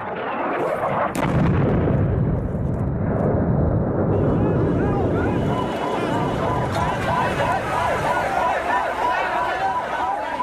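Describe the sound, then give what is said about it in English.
Bombing in Sana'a, Yemen, during war: heavy, rolling explosive rumble fills the first half, then fades as people's voices rise over lingering noise. “Sounds of Sana'a, Yemen's capital, early this month. The bombing, people collecting bodies, fighting fire.”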